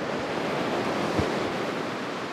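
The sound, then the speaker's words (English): Floodwater after heavy rain rushing down the concrete LA River channel, a steady, dense roar of churning water with no pauses, one soft low thump briefly rising out of it. “That's the world's most famous concrete channel called the LA River. Heavy rain flooded roads across the area, too.”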